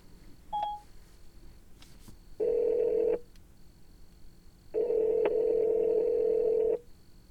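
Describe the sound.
A phone call placed after a spoken command: a brief dialing beep, then two long, steady ringing tones separated by a pause. No voices are heard.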